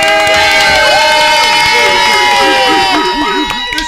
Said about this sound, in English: As you see, we have a live studio audience.